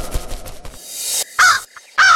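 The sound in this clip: A crow caws twice, harsh and loud, each call short and raspy, standing alone without any voices.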